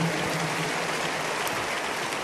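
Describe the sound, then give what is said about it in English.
Applause from an audience, a dense, even wash of clapping that holds steady at moderate loudness throughout, with no distinct individual claps standing out. “If you are clapping, make it bigger, better.”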